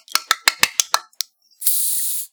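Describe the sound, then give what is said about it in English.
A can of Faygo Lemon Lime soda being opened: seven small, sharp clicks in quick succession, then a short steady fizzing hiss as the can cracks open. “I have a genuine Faygo Delicious Lemon Lime Sprite. so let's crack these bitches open.”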